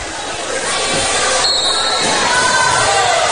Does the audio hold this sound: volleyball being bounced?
yes